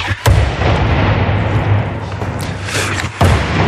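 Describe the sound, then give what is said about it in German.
A hockey puck slams into the rink boards, giving loud booming bangs with a rumbling roar between them; one sharp hit comes near the start and another near the end. “Guck mal, so klingt das, wenn der Puck auf die Bande prallt.”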